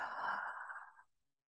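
A single slow, soft breath, airy and quiet, during a guided healing session; it fades out after about a second with no talk around it.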